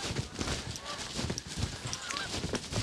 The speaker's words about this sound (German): Späte Kraniche, oder sind es Gänse?